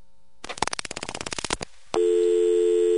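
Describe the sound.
A telephone error tone follows the dialing of 700-555-4141: a rapid run of short dialing tones gives way to a steady, continuous electronic tone that holds unbroken to the end.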